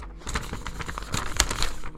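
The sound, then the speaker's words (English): Papery rustling and soft crinkling as a piece of paper is handled, a steady run of light crackles and scrapes with no talk. “Let me check this piece of paper.”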